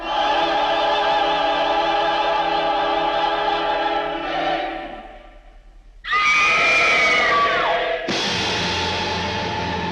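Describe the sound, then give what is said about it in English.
A woman's piercing scream in a film scene set at a concert, where a mother cries out to warn of an assassin: orchestral music plays, fades, then a high sustained shriek breaks in, followed by a loud full burst of sound. “She screams, a human instinct to save someone.”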